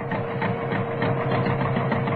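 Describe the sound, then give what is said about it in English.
A tractor motor runs as part of a tree-cutting saw rig, giving a steady mechanical drone with a fast buzzing rattle. Its loudness stays even throughout, and no clear start-up is audible. “Start up tractor motor!”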